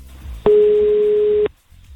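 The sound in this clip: A telephone call rings out as a single loud, steady beep of the ringback tone, lasting about one second at one unchanging pitch. Quiet background comes before and after it.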